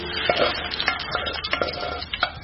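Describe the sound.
Food being stirred in a cooking pan, heard as a run of irregular scraping strokes against the pan over a steady low hiss that may be a faint sizzle. No voices are present.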